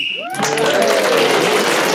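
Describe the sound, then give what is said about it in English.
Audience applauding: a brief tonal sound opens, then a dense, steady wash of clapping sets in and continues at a fairly loud, even level. “I don't know why we're applauding.”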